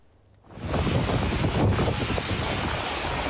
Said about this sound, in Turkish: Antalya'da fırtına, Kastamonu'da hortum, Sinop'ta şiddetli sağanak etkili oldu.